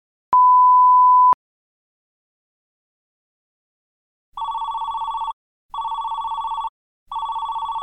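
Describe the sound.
A phone call being placed: one steady electronic beep lasting about a second, a pause, then three evenly spaced ringing bursts, the last one cut off.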